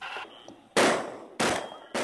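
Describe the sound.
Gunshots fired at wild pigs during a drone-guided night hunt over fields, with three loud, sharp reports in quick succession, each followed by a short decaying tail.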